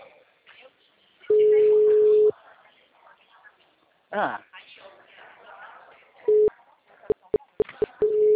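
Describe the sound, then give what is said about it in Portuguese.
A telephone busy signal sounds as one long steady tone, then later as a run of short, quick, evenly spaced beeps. Soft voices speak in the gaps between the tones. “Ai, eu achei que ele tinha atendido. Ah. O número está ocupado.”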